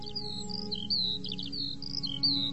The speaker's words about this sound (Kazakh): Тұрғай сайрағанын көптен ешіткен еу еді.